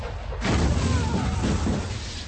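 A shell fired by a T-54 tank explodes on a ridge in combat. After a brief quieter moment, a sudden loud blast erupts and holds as a dense, roaring rumble until the end.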